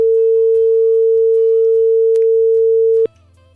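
A telephone line tone sounds as a caller's phone call drops because of a problem: one steady, mid-pitched tone holds loudly for about three seconds, then stops abruptly, leaving only a faint low background hum.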